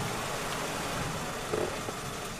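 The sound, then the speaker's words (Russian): A car stopping on a wet road and idling: a steady, low, even engine rumble with a brief soft bump near the end. “потом останавливает машину”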